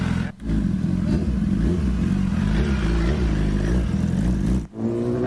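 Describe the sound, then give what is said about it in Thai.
A big bike motorcycle rides off to deliver barbecue to customers' homes, its engine giving a loud, sustained droning roar with steady harmonic tones that dips briefly twice. “มีบริการขี่บิ๊กไบค์เท่ๆแบบนี้ออกไปส่งบาร์บีคิวให้ลูกค้าถึงบ้านนะครับ”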